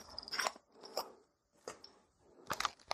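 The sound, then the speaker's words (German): Cap of a 0.5 litre plastic bottle of banana juice being twisted open, heard as a few short crackling, crunching bursts separated by brief pauses, fairly quiet overall. “das ist eine 0,5 Liter Flasche. Und die werde ich jetzt mal aufmachen.”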